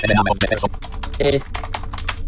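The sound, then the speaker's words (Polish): Fingers type rapidly on a computer keyboard, ending with a press of the Enter key. The clicks come in a dense, fairly loud stream, with a voice briefly audible at the start. “Piszę. Zobaczę, czy da się ALL. Daję Enter.”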